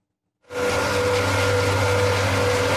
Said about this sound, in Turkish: Fındık dalından toplandı, kurutuldu, sıra kabuğundan ayırmaya geldi. Ordu'da patozların motoru çalıştı.